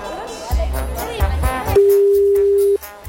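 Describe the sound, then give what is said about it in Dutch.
Telephone ringing tone on an outgoing call: a single sustained electronic tone lasting about a second follows people talking, then cuts off abruptly. “Wij gaan eens even bellen met Michel. Die heeft ons net geappt.”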